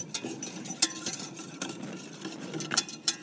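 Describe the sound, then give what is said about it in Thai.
A whisk stirring a liquid mixture containing dissolved vitamin B3, giving quick, irregular clinks and scrapes against the bowl at a fairly faint level. “เราจะใช้ตะกร้อคนก่อนกันนะเพื่อให้ส่วนผสมมันเข้ากัน”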